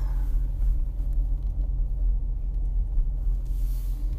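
Low, steady engine and road rumble fills the interior of a moving car, a continuous deep drone with no voices over it.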